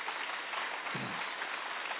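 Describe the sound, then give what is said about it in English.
Audience applause at a church service: dense, steady clapping from many hands, even in level from start to finish, with no voices. “If you're going to clap, please go ahead and do it better than that.”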